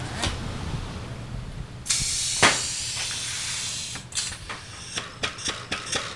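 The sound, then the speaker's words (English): A bottle filling machine pours dark amber spirit into six bottles at once, making a steady, airy hiss of flowing liquid. The hiss grows louder partway through, and scattered clicks and knocks follow toward the end. “The bottle filler does 6 bottles at a time. And I have to say, it's a thing of beauty to see that dark amber liquid pouring into those gleaming bottles.”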